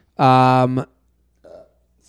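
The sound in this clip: A single loud, drawn-out burp lasts about half a second with a strong buzzing pitch, followed after a short pause by a brief, much fainter sound.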